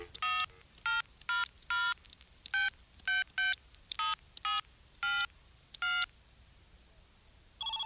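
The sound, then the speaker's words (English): Telephone keypad tones dial a number: about a dozen crisp, steady two-tone beeps in a quick, uneven rhythm with short gaps between them, heard alone without talk. “Let's call it up. Let's give it a call, see what's up.”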